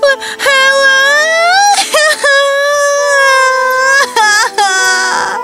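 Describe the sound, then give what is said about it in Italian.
A girl crying loudly, with high, wavering wails in several long sobbing bursts broken by short catches of breath. “Era ferita e indifesa e cominciò a piangere.”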